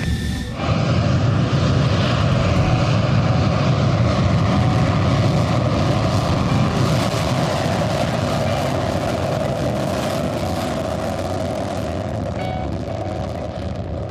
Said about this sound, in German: Direkt nach dem Start gehen die Maschinen auf nordwestlichen Kurs und erwarten die weiteren Anweisungen vom Tower.